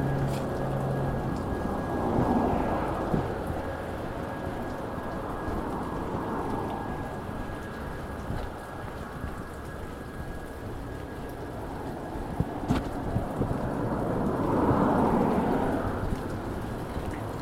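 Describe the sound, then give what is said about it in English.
Steady rain patters densely on surfaces as a constant hiss, while low thunder rumbles swell and fade a few times beneath it during a storm. “Man, I hate the rain. But, you know, we are in a drought, so it's nice.”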